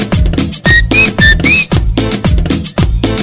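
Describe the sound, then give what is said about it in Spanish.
Whistles from a lively crowd at a party event ring out over loud, thumping dance music. A few bright, high whistle tones sound, some sliding upward in pitch, above the steady beat. “Yo no sé silbar, pero creo que ustedes sí.”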